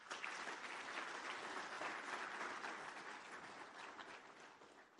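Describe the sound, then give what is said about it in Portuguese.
Audience applause at a government symposium: a low-level, continuous wash of many hands clapping, steady and unbroken across the whole stretch, easing slightly toward the end. “A todos peço uma grande salva de palmas.”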